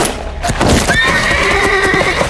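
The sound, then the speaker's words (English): A wounded horse named Ashes whinnies loudly, a high, quavering neigh that holds for over a second after a burst of rough, noisy sounds. “Ashes! Close to panic, Tanner scrambled back to tend the wounded horse.”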